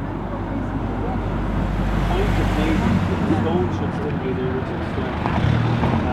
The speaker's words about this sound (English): One of the reasons, so hard to find it because of bloody traffic. You can't just get a minute's peace where you can actually have a look.